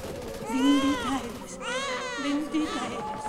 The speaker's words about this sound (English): inquisitive and wondrous at this crying infant